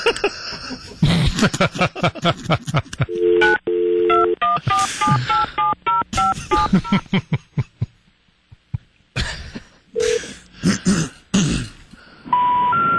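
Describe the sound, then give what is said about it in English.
Telephone keypad tones as a hotline number is dialed, area code plus seven digits, a rapid series of short, clean electronic beeps at varying pitches in an uneven rhythm, with some coughing and throat-clearing around them. “Dial the right number. What else could it be? Well, dial it. I think you dialed incorrectly.”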